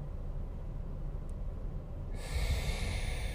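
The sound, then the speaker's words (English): A single deep inhale through the nose during a guided breathing exercise, a soft airy rush that swells partway through and holds steady over faint low background noise. “I want to take a deep breath together. In through the nose. Hold at the top.”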